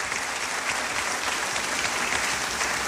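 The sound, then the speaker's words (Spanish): Applause from a church audience welcoming a speaker, dense and steady clapping that holds at an even level throughout, with no voices on top. “recibamos con un fuerte abrazo y aplausos al Señor nuestro Dios, que trae a su siervo David Diamond a compartir la palabra de Dios.”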